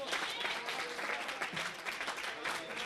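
An audience claps hands in a dense, steady burst of applause that stays at an even level from start to finish.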